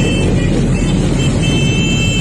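Dozens of motorcycles gathered in a street in Punta Carretas by Parque Rodó make a dense, continuous engine roar. It is loud and steady, with no distinct separate events and no voices.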